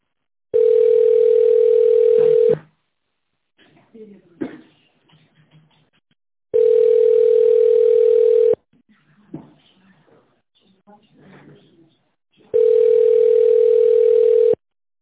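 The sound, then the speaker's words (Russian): Telephone tone while calling someone back: three long, steady, mid-pitched beeps of about two seconds each, separated by longer gaps holding faint low rustling. “Давайте ему перезвоню.”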